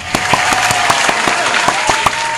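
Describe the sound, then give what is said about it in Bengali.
Applause for quiz players who gave the right answer: many sharp, distinct claps ring out over a steady bed of lighter clapping, fairly loud and continuous. “তাদের সবার জন্য একটা জোরে হাততালি দিয়ে বলবো, প্রত্যেকে দিয়েছো সঠিক উত্তর।”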